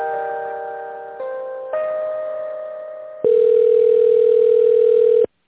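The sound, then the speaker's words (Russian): Telephone tones play while a call is transferred between office departments. Steady electronic tones shift pitch a few times, then end in a louder, sustained single tone that stops abruptly. “Соединяю вас с Еленой”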